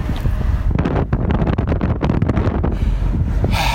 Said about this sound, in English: we have wind happening in three, two, one.